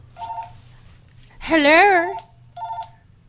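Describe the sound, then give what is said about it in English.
House phone dialing tones in two brief bursts, a voice speaking between them, the second burst matching the first in pitch. “Hello. When did y'all get a house phone?”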